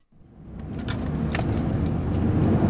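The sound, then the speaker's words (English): A Los Angeles coroner's car drives on winding roads. Its engine swells from near silence into a low, steady rumbling hum that holds to the end. “Winding roads are not unfamiliar to the woman behind the wheel of this Los Angeles coroner's vehicle.”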